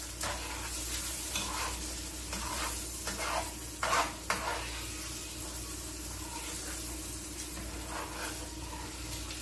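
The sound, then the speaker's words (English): Parsley being stirred into sizzling food in a pan: a steady frying hiss throughout, with a few louder scraping stir strokes near the middle. “Okay, so then I'll put some parsley in it. Okay. Then now you want to mix it around.”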